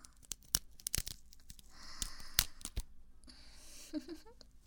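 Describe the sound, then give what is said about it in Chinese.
Stockings are torn apart by hand in a quiet series of sharp rips, snaps and crinkling crackles. The bursts come irregularly, with a longer rasping tear near the end. “撕开它。撕丝袜如果能缓解你的压力的话，也是一个合适的办法。”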